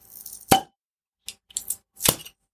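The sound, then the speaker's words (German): A bottle of unfiltered Zwickel cellar beer from Schwabenbräu being opened: one sharp, loud pop, then a few shorter, softer hissing bursts, with no talking. “wir haben hier noch ein äh, Trauerbier. Ähm, ich glaube, wir könnten das mal aufmachen.”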